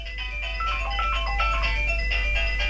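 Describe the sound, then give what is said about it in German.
A mobile phone ringtone plays a tune of short, bright electronic notes that runs without a break, fairly faint and with no talk over it. “Nein, du hast ein Telefon. Und das klingelt sogar. Hört man's? Ja, das hört man.”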